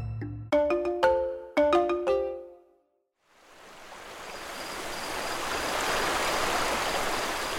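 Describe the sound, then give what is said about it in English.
Flowing water of a river surrounded by forests and mountains, a broad steady rush that swells in and holds even, preceded by several bright chiming tones. “Welcome to Nabaoy River. Surrounded by forests and mountains, it teems with life.”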